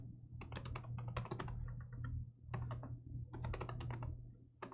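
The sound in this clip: Rapid typing on a computer keyboard while writing code: three quick bursts of clattering keystrokes separated by brief pauses, over a steady low hum.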